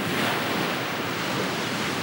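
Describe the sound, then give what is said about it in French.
Sea waves breaking on the shore make a steady, continuous roar of surf with a wind-like hiss. No separate breakers stand out over the two seconds. “Et bientôt, il vit dans le loin la mer. Il s'arrêta. Il l'entendait battre sur le rivage et gronder au fond de l'horizon,”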